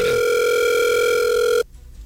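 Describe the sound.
Telephone line ringing on an outgoing call: one steady electronic tone held for about a second and a half, then cutting off abruptly into quiet.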